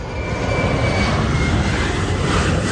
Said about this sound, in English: Ray studies her as a plane passes overhead